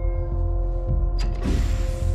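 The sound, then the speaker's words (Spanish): A horizontal lab chamber lid closes with creaking mechanical movement and then a sudden airy whoosh that lingers as a hiss, all over a steady low hum. “La tapa de la cámara horizontal se cierra y un hombre sale del laboratorio.”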